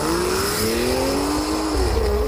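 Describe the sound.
A car engine drones steadily as the car is driven off, its tone rising gently and then shifting, with no voices.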